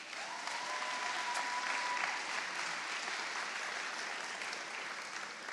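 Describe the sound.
An audience applauds to welcome a guest speaker, with clapping at a steady, moderate level for the whole stretch, alone and without talk.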